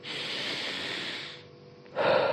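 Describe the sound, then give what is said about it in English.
A deep human breath: a long, steady airy rush lasting over a second fades into a brief lull, then a louder breathy burst follows. “The first one is by taking a deep breath.”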